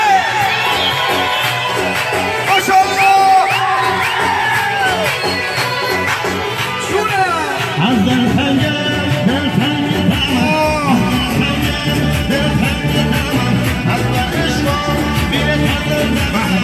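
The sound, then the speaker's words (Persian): A crowd at a celebration in Faruj cheers, whistles and screams for a performer. The noise is loud, dense and unbroken, with whistles and yells layered over one another, and it grows fuller and heavier partway through. “هر چقدر ارادت دارید به اون هرمند عزیز صدای سوتا و جیغا بیاد بالا”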